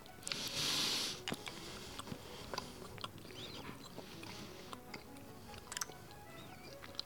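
Faint chewing and biting of turkey-dinner-flavored apple pie, with many soft, irregular crunchy clicks spread over several seconds and a short hissy rustle near the start.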